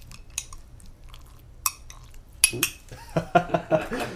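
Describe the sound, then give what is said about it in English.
A little spoon muddles fruit juice in a glass with sherry, standing in for a muddler: quiet at first, then soft squishing and several sharp clinks and taps of metal against glass. “Normally we'd have a muddler, but I have a little spoon, and we're just kind of gonna squeeze. Ooh, I'm excited. All the juices and junk out of here. You could hear all that.”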